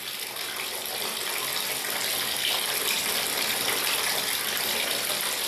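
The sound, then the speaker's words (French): Hot water running from a tap into a bathtub, a steady, even rushing hiss that holds at the same level throughout with no voices. “En rentrant, maman m'a fait prendre un bain. Quand je suis entrée dans l'eau, il était glacé. Elle a fait couler de l'eau chaude”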